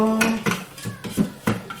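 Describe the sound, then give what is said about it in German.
A spatula scrapes chopped food down the inside of a food chopper bowl, making a handful of short scraping and knocking sounds in an uneven rhythm. “So, jetzt soll ich das mit dem Spachtel da oder Spatel, wie das Ding heißt hier, alles nach unten schieben. Ja, mach ich.”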